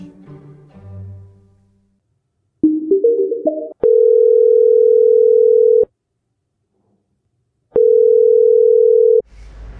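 Telephone tones while placing a call: a short run of dialing beeps, then two long, steady mid-pitched tones separated by a gap of silence, with no talking over them.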